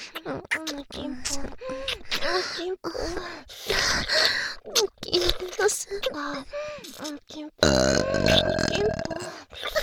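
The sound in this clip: Repeated burping: many drawn-out, voiced belches with wavering pitch, some short and some long, ending with an especially long, loud, gurgling belch.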